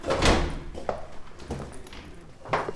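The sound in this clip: A white wall cabinet door is opened in a small music room, making a few soft knocks and clatters of the door and its contents, spaced irregularly with quiet rustling between them.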